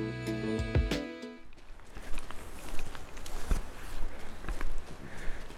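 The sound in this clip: Soft, irregular footsteps on a short night walk through a forest, faint over a quiet background after a brief tonal sound fades out at the opening.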